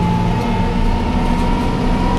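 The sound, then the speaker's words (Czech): Steady, heavy engine drone from a Bushmaster armoured vehicle as it drives over 2.5-metre obstacles, a low rumble with a sustained mid-pitched whine that holds an even, loud level throughout without distinct impacts. “Řidič Bushmasteru Jakub Dobijáš právě překonává 2,5metrové překážky.”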